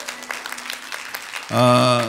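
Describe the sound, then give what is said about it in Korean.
Applause from a church audience, a dense, steady patter of clapping, with music swelling in near the end. “우리 뜨거운 박수 부탁드리겠습니다.”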